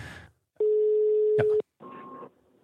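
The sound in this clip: A telephone tone while placing a call: a steady, single-pitched electronic tone lasting about one second, with brief talk just before it and another short sound after it.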